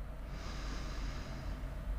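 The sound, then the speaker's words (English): A single soft, airy inhale through the nose during a guided breathing exercise rises and fades over about a second, faint against quiet background noise. “So breathing in”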